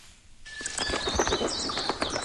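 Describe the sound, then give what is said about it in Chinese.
Many birds call over a lake wetland at Baiyangdian at dawn. Bright chirps and tweets overlap densely after a brief quieter opening and carry on steadily to the end. “晨光熹微，清脆的鸟鸣划破了白洋淀的宁静，各种鸟叫声此起彼伏，交织成一场动人的音乐会。”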